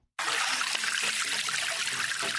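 Spring water trickling from a developed natural spring that serves as the only water point for a community in Cameroon; a steady, fairly loud splashing hiss begins abruptly and holds even throughout, with no voices.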